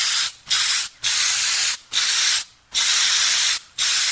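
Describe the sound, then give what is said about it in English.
An aerosol spray can hisses in six separate bursts of bright, steady spray, each cut off cleanly by short silent gaps, with no other sounds. “Because that could be like spray deodorant or Lysol. Spray can.”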